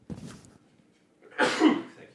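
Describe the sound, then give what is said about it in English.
A person's sneeze: a brief soft sound, then a louder, breathy burst about a second later. “bless you, thank you. I always wait in case you sneeze again.”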